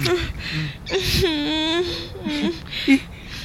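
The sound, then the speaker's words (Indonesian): A person crying: wavering, whimpering sobs in short voiced bursts with breathy gaps between them, one longer shaky wail near the middle. “Kamu kenapa nangis?”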